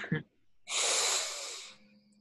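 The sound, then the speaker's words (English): A single long, deep inhaled breath, loud and airy, lasting about a second, preceded by a short sniff-like intake. “I literally stop everything I'm doing. I'm like, okay, deep breath.”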